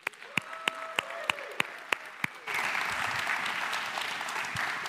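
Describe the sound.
Congregation applause welcoming a guest speaker: a run of evenly spaced sharp taps, then a steady wash of clapping breaks out halfway through and carries on to the end.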